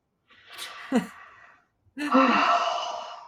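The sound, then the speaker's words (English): A deep breath during a breathing exercise: air is drawn in first, then after a brief pause a longer, louder, sighing exhale follows, with no talking. “There you go. Nice breath.”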